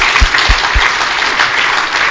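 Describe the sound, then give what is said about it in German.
An audience applauding at a church worship service with steady, dense clapping throughout, loud, with a few low thumps near the start. “könnt mal für Jesus klatschen.”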